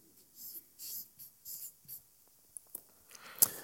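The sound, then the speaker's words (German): Pen scratching across paper in a few short, dry strokes, faint and alone, followed by several sharp little ticks and taps near the end. “Schreibe ich auf.”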